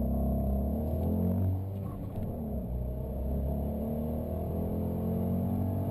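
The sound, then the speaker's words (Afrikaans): Two-cylinder engine growl of a Fiat 500 Sport car rated at 63 kW. It is a steady, loud, low rumble held throughout, with a slight dip in level about midway and no voices. “Die twee silinderse knor en ratshantering dra by tot die 500 sport se charme.”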